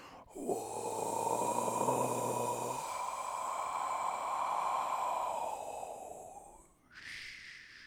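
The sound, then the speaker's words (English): A long, steady breath out, soft and airy, that lasts several seconds before fading. A brief second breath sound follows near the end. “You're breathing out. You hear yourself breathing out.”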